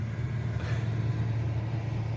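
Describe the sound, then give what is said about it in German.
A steady, loud, low engine rumble from a vehicle near a playground holds an even drone without any clear change in level. “Das Fahrzeug wird langsamer und hält an in der Nähe des Spielplatzes von Neukirchen.”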